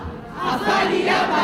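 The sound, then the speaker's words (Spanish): A street protest crowd in San Sebastián chants and shouts against a city ban on solidarity dinners for homeless people. The massed voices form a brief, loud, steady roar. “Este es el sonido de las protestas que provocaba ayer la decisión del consistorio de prohibir las llamadas cenas solidarias”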